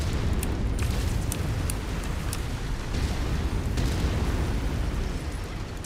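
Explosions in a video game with destructible enemies and surroundings: a dense, loud, continuous rumble of blasts with a few sharper bursts breaking through, steady from start to finish.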